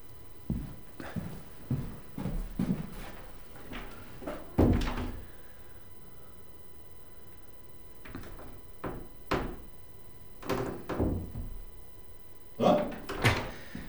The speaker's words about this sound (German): Und woran haben Sie das gehört? Die Tür hat geknarrt.